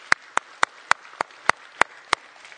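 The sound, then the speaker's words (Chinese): Hand clapping at a church service welcoming first-time visitors: eight sharp, evenly spaced claps in a steady rhythm over a quiet background. “让我们用热烈的掌声来欢迎你们，好不好？”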